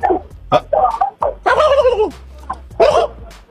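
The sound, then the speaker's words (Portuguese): A chicken clucking, a call first mistaken for a turkey's: a few short, harsh clucks and one longer squawking call, uneven in rhythm, over a low steady hum. “Que é isso aí? Que é isso? Um peru? Que diabo é galinha. Isso? Galinha. Pareceu um peru.”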